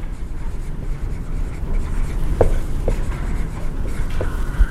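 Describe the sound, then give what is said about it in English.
Faint scratching strokes of writing on a board during a business finance lecture, a few short marks rising above steady low background noise. “Okay, let me write here.”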